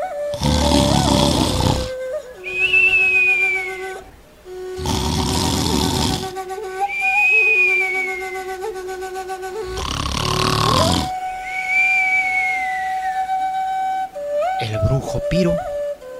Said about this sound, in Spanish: cuando la madre de las huanganas roncaba